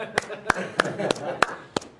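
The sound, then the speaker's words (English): A lone fan claps six times at an even, unhurried pace, each sharp, dry smack standing out over a voice talking underneath. “That was the sound of one fan clapping.”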